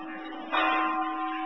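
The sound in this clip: A bell rings as a mindfulness cue during a Buddhist dharma talk. Layered, steady ringing tones hum throughout, and a brighter struck swell enters partway and then lingers evenly to the end.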